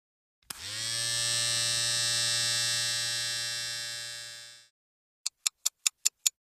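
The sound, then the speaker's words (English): An electric shaver buzzes steadily for about four seconds before switching off, followed by six quick, sharp clicks in an even rhythm. “I guess the only thing left to do now is to shave.”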